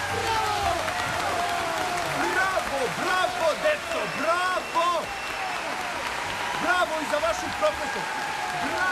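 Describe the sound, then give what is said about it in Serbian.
An audience applauds in dense, steady clapping that continues throughout, with voices rising over the crowd in places. “Snažan aplauz je probudio Krcu.”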